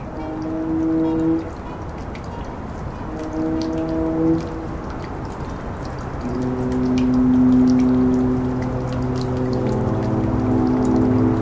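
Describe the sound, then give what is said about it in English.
A foghorn sounds several sustained, low, harmonic blasts at differing pitches, the last one long and swelling. Sharp little drips from a dripping tap tick scattered throughout. “That's the sound of a foghorn, recorded by Ben Trefney, and a dripping tap, recorded by Mary Willis.”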